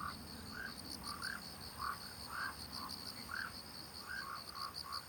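Frog croaking in a steady series of short, repeated calls, faint and without talk, over a continuous high-pitched whine that runs throughout.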